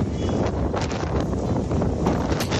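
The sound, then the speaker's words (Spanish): Strong wind from storm Carlota blowing across the northwest of the Iberian peninsula, a rough, continuous roar with gusty bursts of noise. “Sí, sí, el viento, pero, pero el viento, viento, ¿eh? Todo vuela en buena parte de la península”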